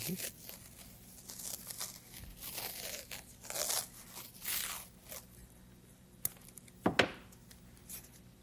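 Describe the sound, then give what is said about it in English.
Adhesive tape being torn and wrapped around a clothing sleeve: a few rasping tearing and crinkling bursts spaced out over a quiet background, with a sharper tear near the end. “I put tape on mine. You want tape on yours? Sure. Okay. Prepared to be taped.”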